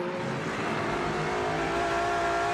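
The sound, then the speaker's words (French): A Lexus race car, number 87, runs on track in an LMGT3-class endurance race, its engine holding a loud, steady, high droning roar with a sustained harmonic whine and no voices. “Et là, regardez. La Lexus 87 de José Maria Lopez.”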